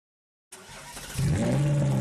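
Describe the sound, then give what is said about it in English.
Ferrari sports car engine starting on a street and revving: silence, then a sudden start into a rough running sound that swells into a louder, deep, sustained roar partway through. “Start up your crimson Ferrari on the street and watch the heads turn.”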